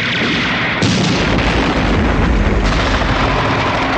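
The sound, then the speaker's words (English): Helicopter gunfire pours into a building in a dense, continuous barrage of loud booming and rattling bursts, with no pause and no voices. “The helicopter gunfire continues as guards hurry around the perimeter.”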